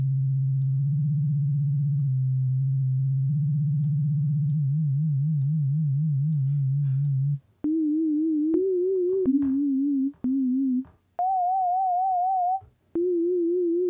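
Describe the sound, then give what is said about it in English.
Pure synthesizer sine tone, pitch-modulated in semitone steps, with an old sci-fi UFO warble. It starts low with small pitch steps and a fast wobble, then jumps between higher notes with rapid vibrato, separated by brief silences. “Right now, we're modulating it by 4 octaves up and down, I believe. Let's do it by semitone. If we make it short, it's faster.”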